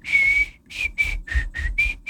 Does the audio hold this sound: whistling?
yes